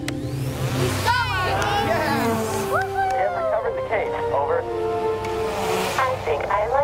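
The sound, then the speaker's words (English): Motors of a parachute-dropped craft starting up during free fall, a busy whir with sweeping tones, heard under several people talking. “Motors on standby. Jettison your parachute. Jettisoning parachute. Whoa, he's free falling. Start your motors now.”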